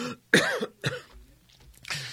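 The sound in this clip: A few harsh coughs from a person choking on their words, each a loud, rough burst with short pauses between them, ending in a throaty clearing.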